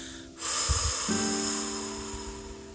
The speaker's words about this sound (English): we're going to inhale, big belly breath, and exhale, and I want you to exhale your thoughts and blow them into your hands.